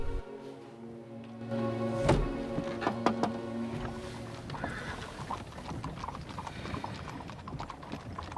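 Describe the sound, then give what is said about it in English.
Horses' hooves clip-clop as they pull a carriage to a halt beside another, waiting carriage. A few sharp clattering knocks stand out early, then a steady jumble of hoof falls and creaking mechanical rattles continues to the end. “the horses are brought to a halt next to another carriage, which is waiting”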